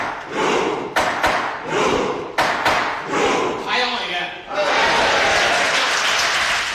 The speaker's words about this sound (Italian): Siamo all'interno del Parlamento norvegese. Un uomo con il completo scuro e la cravatta rossa batte col martelletto del giudice sul banco.